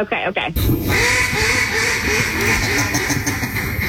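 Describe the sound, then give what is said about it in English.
A blown duck call gives loud, raspy, buzzing quacks that run nearly nonstop for several seconds, with a brief break early on. “Yeah, we know it's a duck call.”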